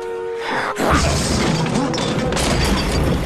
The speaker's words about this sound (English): The next attack from Steel knocks over the medicine box.